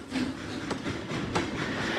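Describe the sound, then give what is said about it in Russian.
Train wheels roll on the rails of a train winding down into a valley: a steady, quiet, low rumble broken by a few regular clacks, heard alone without voices. “Все быстрее катились колеса. Поезд, извиваясь змеей, спускался в долину.”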